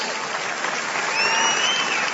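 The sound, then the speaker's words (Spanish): Applause from a church audience, a dense, steady wash of clapping hands that swells slightly in the second half, with faint voices mixed in. “Vamos, dale un aplauso al Señor.”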